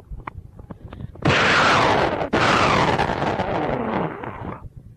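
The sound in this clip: Gunshots fired at a leaf on a tree: two loud, sharp blasts about a second apart, each followed by a long, roaring decay that slowly fades, with faint clicks before them.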